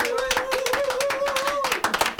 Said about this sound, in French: Qu'on applaudit encore une fois le public.